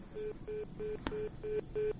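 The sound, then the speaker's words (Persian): Repeated beeps of a telephone tone after a call to a colleague in Baghlan province, Afghanistan, drops: six evenly spaced mid-pitched pulses with a brief click partway through. “تماس ما بار دیگر با همکار ما در ولایت بغلان قطع شد.”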